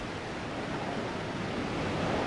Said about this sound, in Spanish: Isla, costa y rompientes. El mar está siempre como queriendo encaramarse a las islas, sin conseguirlo.